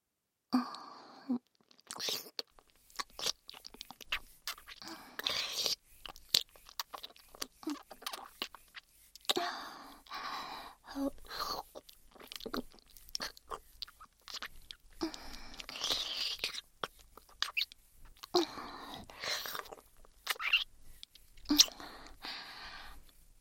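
Wet mouth sounds from ear licking: many soft, quiet smacks, slurps and clicks arriving in irregular bursts with short pauses between, faint and intimate throughout.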